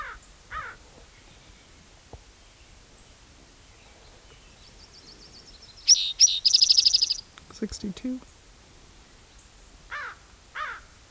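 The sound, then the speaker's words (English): Raven calls come in a few short, harsh bursts spread across a quiet background, with a cluster of higher, rapid chirping notes in the middle; all fairly faint. “Raven.”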